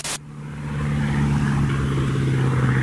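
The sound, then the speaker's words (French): A propeller airplane engine drones as the plane approaches Paris in darkness. After a brief burst at the start, a low, even hum swells over the first second, then holds loud and steady. “Ce ronron, c'est le bruit du moteur du Spirit of Saint-Louis, l'avion de Charles Lindbergh.”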